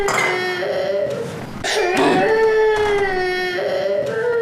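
A baby cries in long, wavering, high-pitched wails that stay loud almost throughout. The crying dips briefly before surging back in strained, continuous bursts.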